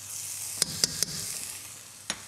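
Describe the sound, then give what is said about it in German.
Vegetables gently sweating in butter in a pan give a steady, soft sizzle, broken by four sharp pops and crackles. No voices are heard. “So, wir schwitzen das leicht an. Ich gebe schon etwas Butter noch hinein.”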